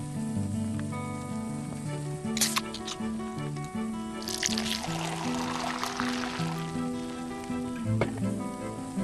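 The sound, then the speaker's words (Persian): Kebab meat sizzling as it grills over charcoal, a steady crackling hiss with louder bursts of spitting and popping scattered through it. “صدای کباب شدن گوشتو میشنوم. آره همینه.”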